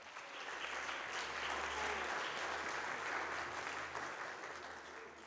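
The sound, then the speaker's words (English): Congregation applause during a church service, following a child's dedication: a steady wash of many clapping hands, even and sustained for about five seconds without a break. “Let's give them another hand.”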